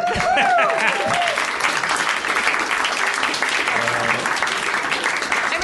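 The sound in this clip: An audience applauds at a live tabletop role-playing game show, with steady, dense clapping throughout and a short vocal whoop at the start.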